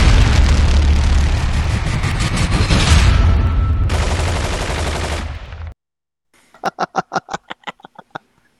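Gunfire of a firing squad volley sound effect: a long, loud, dense roar of continuous shots, then after a brief silence a rapid run of separate sharp cracks.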